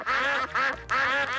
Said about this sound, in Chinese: 更多的鸭子来了。 鸭子们的兄弟姐妹们都来了。 又来了许多鸭子。